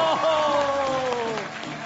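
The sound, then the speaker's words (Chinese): Applause at a gala welcoming two guests onto the stage: steady audience clapping under a voice calling out, easing slightly toward the end. “大家一定对他们都很熟悉，让我们掌声欢迎他们登场。”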